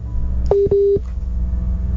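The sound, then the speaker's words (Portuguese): Telephone tones of a dropped phone call: two short, flat-pitched beeps in quick succession over a low background hum. “Caiu a ligação do Irineu? Caiu. Eu vou retornar a ligação para ele poder conseguir rezar conosco.”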